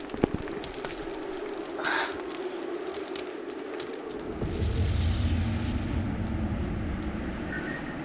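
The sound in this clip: A gravity charge thrown down in a fight detonates as a deep, rumbling blast. Steady crackling noise comes first, then a heavy low surge swells and holds to the end, with no talk.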